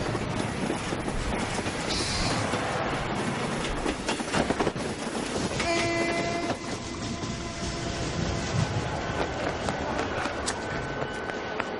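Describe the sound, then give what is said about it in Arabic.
A train runs on rails with a steady, loud rumble and a rattling clickety-clack throughout. Sustained high squealing tones join the noise partway through. “اول محطة رح يوقف فيها القطار محطة بهارماس بعد شي 100 كيلومتر.”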